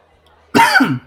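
A single short, harsh cough clears nuts stuck in the throat. It bursts out sharply after a near-silent moment, is rough and partly voiced, and lasts about half a second before stopping.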